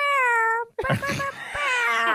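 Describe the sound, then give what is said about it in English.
A human voice imitates a cat's meow with a drawn-out, whiny, wavering tone. After a brief gap, more vocal sounds and noisy overlapping voices follow. “You sound like a cat. Yeah, you really do.”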